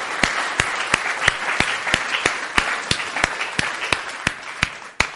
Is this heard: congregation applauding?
yes